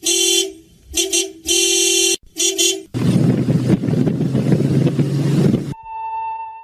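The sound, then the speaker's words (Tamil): A vehicle horn toots several times in short bursts, then the engine roars steadily as the vehicle drives off, ending with a brief steady tone. “Driver வண்டி எடுங்க.”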